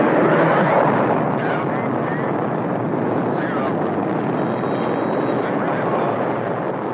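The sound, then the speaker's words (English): Atlas rocket lifting off with the Friendship 7 capsule in 1962, a loud, steady rumbling roar that holds through the whole clip and fades slightly at the end. “The liftoff of a U.S. Atlas rocket on February 20, 1962, topped with a capsule called the Friendship 7.”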